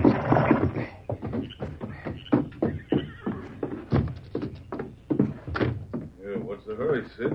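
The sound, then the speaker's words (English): Horse hooves and a brief whinny as a rider reins his mount to a fast stop at a shack, heard faintly beneath continuous narration and talk. “Sid reined to a fast stop at the shack.”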